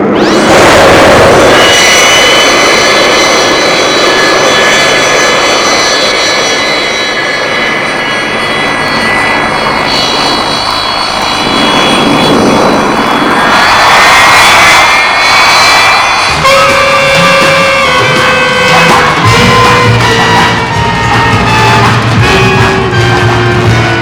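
A loud aircraft engine starts up for takeoff with a sustained roaring drone full of whining tones. The pitch climbs and swells partway through, then settles into a steadier, higher hum.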